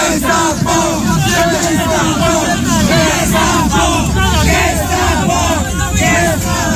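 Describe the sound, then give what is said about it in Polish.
Around thirty protesters shout at a bailiff while trying to block an eviction. Many overlapping voices yell and chant loudly and continuously, forming a dense, agitated crowd roar throughout. “Z ust demonstrantów można było usłyszeć okrzyki pod adresem komornika.”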